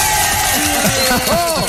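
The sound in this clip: Friends cheering for a man named president of the residents' association: a loud burst of overlapping shouts, whoops and bellows, dense and continuous.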